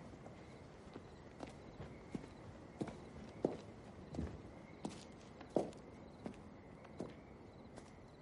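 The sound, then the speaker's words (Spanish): Footsteps walk outdoors toward a woodshed beside a house where firewood is stored. The light, irregular steps are many and fairly faint, over a quiet background hiss. “Anabel camina hasta el cobertizo ubicado en el lateral de la casa, donde se almacena la leña”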